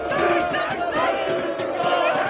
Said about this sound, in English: This is the sound of Turkish protests that began on March 19th,